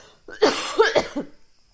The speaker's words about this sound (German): Warte, ich muss husten.